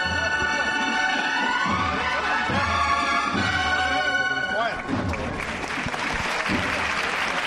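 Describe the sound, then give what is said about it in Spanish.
Crowd applause rings out in the Plaza de la Campana for the float of the Señor de la Sentencia in a procession. Loud, continuous clapping runs over sustained tonal sounds, then turns denser and noisier toward the end, with voices in the mix. “Y rompen aplausos la plaza de la campana para el misterio del señor de la sentencia, que ya enfila este último tramo de la plaza de la campana,”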